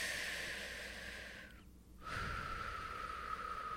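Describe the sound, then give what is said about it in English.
A person takes a deep breath during a tapping exercise. The breath is a faint, airy hiss that briefly drops away before resuming. “Good, take a deep breath.”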